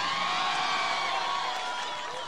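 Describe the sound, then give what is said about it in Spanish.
Crowd cheering and whooping for the winners at a car rally awards ceremony, a loud, continuous mass of voices that eases slightly toward the end. “Aplauso para los protagonistas. Vamos, que estamos cerrando la fecha.”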